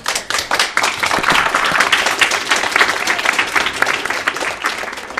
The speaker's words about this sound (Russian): правильно еще мне аплодировать?